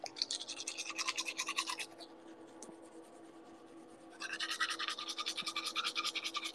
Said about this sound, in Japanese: 歯磨こにゃ。